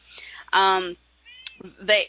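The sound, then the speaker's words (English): A house cat meows loudly in a few drawn-out, high-pitched cries separated by brief quiet gaps. “What was that? That would be my cat.”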